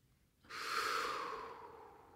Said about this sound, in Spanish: Y comienza con un ligero inhalo.